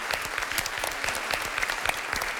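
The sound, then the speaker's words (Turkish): Applause during a quiz game, made up of many quick, distinct hand claps in a light, faint patter that keeps going throughout. “Alkışlıyorum sizi.”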